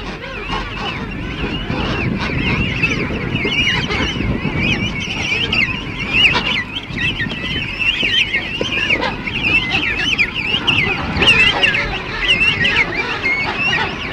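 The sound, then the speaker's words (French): Penguins on the Kerguelen Islands call in a dense, continuous chorus of harsh, honking brays, with many voices overlapping throughout. “Les manchots, oiseaux de mer sédentaires, joignent au pittoresque de profondes qualités maternelles.”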